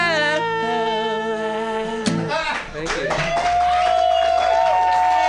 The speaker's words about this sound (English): Everybody's clapping, but you should be voting for them.